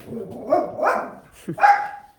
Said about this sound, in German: oh, da bellt sogar der Hund. Momentchen mal, den muss ich mal ganz schön rausjagen.